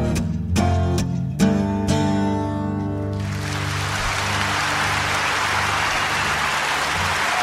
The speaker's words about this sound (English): Okay, hold your applause, hold your applause. No, no, more, more, please.